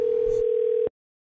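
A telephone dial tone after a call has been disconnected: one steady, mid-pitched hum that cuts off abruptly just under a second in, followed by silence.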